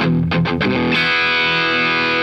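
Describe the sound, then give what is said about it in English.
Dry distorted electric guitar power chord with no reverb: a few short choppy chugs, then a single chord rings out loud and steady, cut off cleanly with no echo tail. “Let's tie this all up in a nice, neat power chord. We talked about reverb before. What's the opposite? It's called a dry signal, which sounds like this.”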